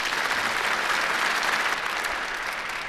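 An audience applauds to welcome a panel, with dense, even clapping held steady for about three seconds and easing only slightly at the end.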